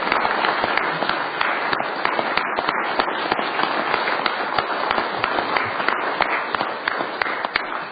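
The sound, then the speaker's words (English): Applause in a state legislature's Senate chamber welcoming visiting elementary school students: dense, steady clapping that holds at an even loudness through the whole stretch, with no voices over it. “I'd ask the Senate to give them a nice welcome and a round of applause.”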